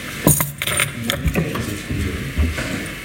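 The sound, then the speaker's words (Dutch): An electric shaver seems to run during a council meeting, giving a continuous buzzing mechanical whir of steady loudness with a few sharper clicks near the start. “Is iemand zich aan het scheren?”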